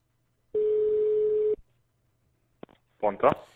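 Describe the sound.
Telephone ringing tone heard by the caller during a prank call: one steady mid-pitched tone lasting about a second, then silence, a click, and a voice answering.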